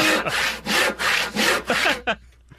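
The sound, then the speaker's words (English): Hand saw cutting through wood in a quick, even series of rasping back-and-forth strokes. Each stroke is loud and gritty, and the sawing stops abruptly near the end. “that sounds like a saw. That is a saw.”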